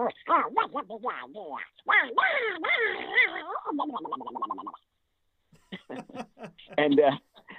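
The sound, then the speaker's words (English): A human voice imitates an irascible, easily provoked cartoon duck with raspy, sputtering quacks in rapid bursts, falls silent briefly, then returns with a few more angry squawks. “Donald's an irascible character. Mm-hmm. And any little thing will set him off. So he's a little different than little Quacker. You know, he sounds like this.”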